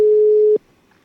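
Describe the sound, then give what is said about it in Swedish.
A telephone ringing tone as a call is placed: one loud, steady, mid-pitched tone that holds for about half a second and then cuts off into quiet. “Ja, då ska jag ringa upp Eva Kardell och se ifall hon är vaken.”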